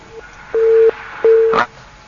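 A telephone busy tone sounds after a call line is cut off: two steady, mid-pitched beeps of equal length with a faint short blip before them and a brief crackle at the end.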